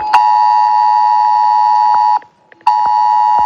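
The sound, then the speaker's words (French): A mobile phone sounds the FR-Alert emergency alert ringtone: a loud, piercing, sustained electronic tone with a pulsing beat, broken by one short pause before it resumes just as loudly to the end. “C'est ça, c'est la sonnerie FR Alert. Alors, FR Alert, c'est une sirène que le préfet peut décider de déclencher un événement sur une zone donnée.”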